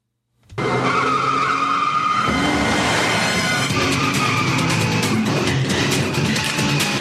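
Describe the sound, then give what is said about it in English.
A car speeds away with skidding, squealing tires. After a brief silence, a loud, continuous engine roar and tire noise start abruptly and hold steady to the end. “Sydney grabs her cell phone and jumps into the car, and Jack drives off.”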